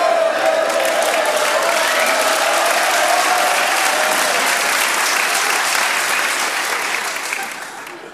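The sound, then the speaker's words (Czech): Sustained audience applause from a crowd joining in a recording session, dense and even clapping that thins and fades toward the end. “a pak už takový celý dav, sklepy, sklepy a na závěr potlesk ještě, ano?”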